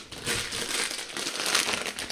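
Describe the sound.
Crinkling of a bag of Verpoorten egg liqueur eggs, a dense, continuous crackle that runs steadily for a couple of seconds.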